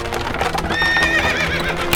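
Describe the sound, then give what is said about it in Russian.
A horse neighs with a long, wavering whinny while its hooves clop steadily as a horse-drawn cart pulls away from a house on a wartime evening. “О, вон опять та повозка выезжает.”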